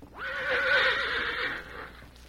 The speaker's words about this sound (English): where he stopped and whinnied. Then he entered.